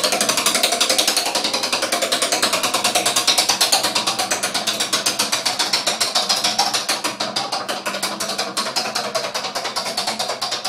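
Rapid ratcheting clicks of a spinning prize wheel form a dense, even rattle of many sharp ticks that runs steadily throughout, with no voices.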